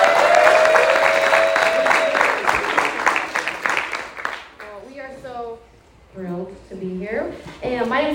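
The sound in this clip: An audience applauds to welcome two guests onto the stage with dense, loud clapping for several seconds. The applause dies away as a voice starts speaking.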